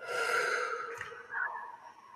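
Deep guided breath drawn in through the nose and let out through the mouth during a relaxation exercise: a soft, steady, airy rush lasting about two seconds with a second swell partway through, heard alone.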